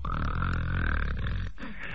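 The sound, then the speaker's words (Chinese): A storyteller's voice imitates loud snoring: a low, rough, rattling grunt drawn out for about a second and a half, then a short breathy exhale. “怎么打呼噜了？”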